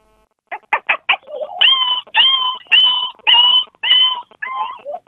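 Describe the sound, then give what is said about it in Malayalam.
A human voice imitates a dog yelping after being hit by a stone: a few short clicking bursts, then a string of high, wavering yelps, each sharply cut off. “ഇനി പട്ടിക്ക് കല്ലേറ് കൊള്ളുമ്പോ ഒരു sound ഉണ്ടല്ലോ, ആ അത് ചെയ്യാം.”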